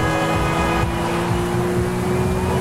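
A car accelerating hard at full throttle toward its top speed gives a loud, steady engine roar with strong tonal harmonics that runs through the whole clip, with no voices.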